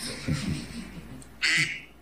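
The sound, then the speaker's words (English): A duck-quack ringtone on a phone cutting into an anti-vax speech: one short, bright, nasal quack bursts out after a moment of faint talk. “It's a quack”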